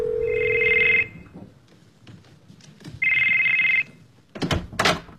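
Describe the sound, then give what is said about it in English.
A telephone rings twice: two loud electronic trilling rings, each about a second long, separated by a pause. A few brief thumps and rustles follow. “Your phone rang.”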